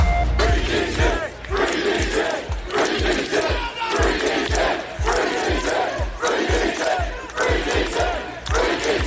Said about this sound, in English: That was the sound of demonstrators outside Basingstoke's police centre protesting the arrest of Daniel Thomas, better known as Danny Tomo.